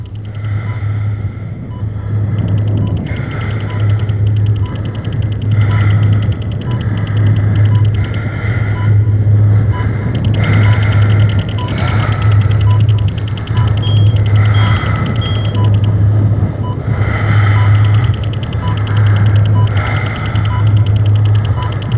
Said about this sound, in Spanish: Retinal scan imaging. Melange lo escaneará para concederle acceso. RSI system engaged. Scanning. Escaneando.